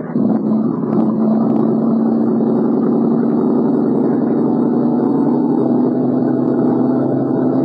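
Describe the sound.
A boat's engine drones loudly and steadily throughout, a dense, even roar with a low rumble and no pauses, during a dive survey at sea.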